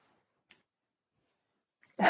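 A dog barks once, a short sharp bark that bursts in loudly at the very end after near silence.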